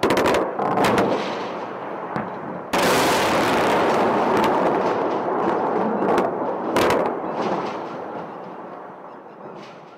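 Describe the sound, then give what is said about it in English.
Explosions and heavy fire from massive US airstrikes on Iraq during the Shock and Awe opening of the invasion: a dense, sustained roar broken by several abrupt, sharp blasts. “the U.S. began its invasion and occupation of Iraq with massive airstrikes across the country in an operation called Shock and Awe.”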